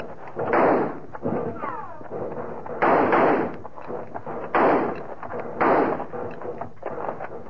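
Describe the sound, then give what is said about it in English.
Gunfire echoes through a rocky canyon in a gunfight. Several loud, noisy blasts strike at irregular intervals over a continuous rough background. “They quit firing. I guess they must be reloading.”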